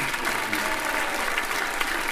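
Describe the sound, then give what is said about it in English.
An audience claps and cheers at a concert with a tuba section: a dense, steady wash of applause with raised voices mixed in, loud and unbroken throughout. “Big cheer for the genuine man! And the tuba”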